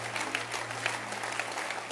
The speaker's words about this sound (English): Lady Reverend Emma is not here, but I want us to clap our hands for her